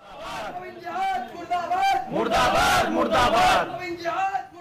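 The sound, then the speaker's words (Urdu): Crowd chanting slogans in unison at a Hindu nationalist organisation's rally against 'love jihad' in Saharanpur, western Uttar Pradesh: loud, continuous massed shouting voices that swell and surge throughout, with sustained chanted tones. “مغربی اتر پردیش کے سہارنپور میں ایک ہندو نواز تنظیم کے اجتماع میں لف جہاد کے خلاف نعرے لگائے جا رہے ہیں۔”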